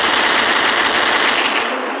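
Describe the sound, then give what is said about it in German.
Machine-gun fire in a radio drama: a loud, dense, rapid burst of shots that rattles on without pause, then cuts off sharply just before the end. “Schießen! schnell nachladen.”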